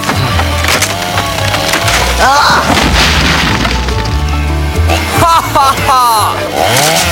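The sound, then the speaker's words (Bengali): Wood creaks, cracks and splinters as a tree is cut down. The sound runs under steady talking throughout and stays fairly loud, with scattered sharper cracking bursts. “আমার গাছ কাটলে কেন?”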